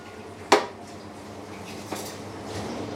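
A metal lid clanks onto a cooking pot while white asparagus roasts with shellfish: one sharp, bright clang, then a much fainter knock later, over a low steady kitchen background.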